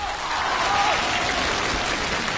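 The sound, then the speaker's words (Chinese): An audience applauds at a live comedy crosstalk performance, a dense, even wash of clapping that holds steady from start to end. “大伙儿鼓掌了。 你没听那个掌声里边都带着嫌弃吗？”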